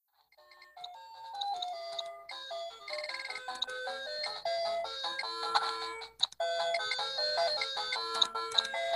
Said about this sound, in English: Well, that's the sound you're hearing is the sound from that mini Tetris cabinet.